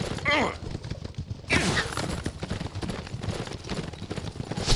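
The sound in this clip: Galloping horse hooves during a horseback escape in a mobile endless-runner video game: rapid, continuous drumming hoofbeats throughout, with bursts of other busy game sounds.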